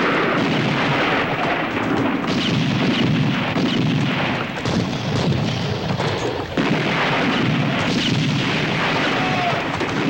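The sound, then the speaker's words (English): Gunfire erupts as sailors from boats come alongside and board a schooner, a dense, loud barrage of overlapping shots and booming blasts forming a nearly continuous roar for the whole stretch, with no voices standing out. “Their sailors climb aboard and open fire.”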